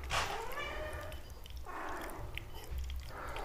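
A domestic cat meowing: three drawn-out meows spread over a few seconds, the first clearest and loudest, over a low steady background rumble.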